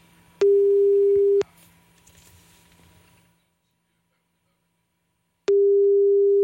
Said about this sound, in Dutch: Kijken of ze de telefoon opneemt. Anders dan spreken we gewoon een voicemail in.